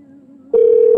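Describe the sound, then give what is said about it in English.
A telephone ringing tone on an unanswered call: a faint low hum gives way midway to a loud, steady, pitched tone. “Oh, well, the plan's ruined because Jackie's not even picking up.”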